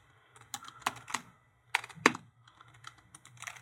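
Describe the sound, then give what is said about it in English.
Typing on a computer keyboard: bursts of quick, uneven key clicks, with a short pause midway and a couple of louder strokes, over a faint low hum. “I'll type it out for you.”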